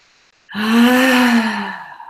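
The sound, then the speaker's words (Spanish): A long voiced 'ah' exhaled through the mouth in a guided breathing exercise of breathing in through the nose and out through the mouth. The tone is steady and mid-pitched, then fades out slowly. “Inhala por la nariz, exhala por la boca. Ah. Y tercera vez inhalas.”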